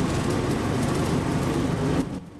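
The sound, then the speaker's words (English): Steady engine drone of a small John Deere riding mower pulling a trailer up a steep road, a constant low hum that holds level and then cuts off abruptly near the end. “The road is steeper now, and Alvin rapidly adjusts the controls of the small John Deere mower.”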